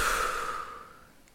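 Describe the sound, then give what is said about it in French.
A single long breath blown out during a guided breathing exercise: a soft, airy rush that starts strongest and gradually fades over about a second, with no voice. “Donc vous inspirez et vous soufflez.”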